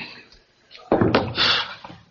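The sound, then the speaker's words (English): A door sounds as a brief cluster of faint, dull thuds near the middle of an otherwise quiet stretch, followed by a softer, lingering rustle. “Door.”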